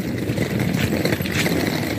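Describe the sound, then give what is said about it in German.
Rolling suitcase wheels rumble over a Prague pavement, a continuous gritty, rattling drone with small irregular bumps and no pauses across the short stretch. “Ja, das ist einfach Rollkoffer, der über den Bürgersteig fährt.”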